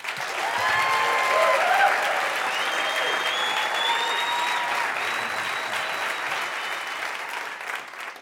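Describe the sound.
An audience applauds to welcome Alejandro Escovedo and his band at E-Town, a dense, steady wash of clapping that holds strongly and fades slightly toward the end.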